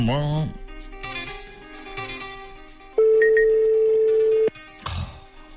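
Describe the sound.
A telephone ringback tone plays while a caller waits for someone to answer. One steady, mid-pitched tone lasts about a second and a half, with a voice talking before and after it.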